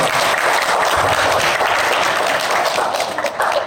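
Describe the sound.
Audience giving a standing ovation on Father's Day: dense, steady applause from many hands, loud and unbroken throughout.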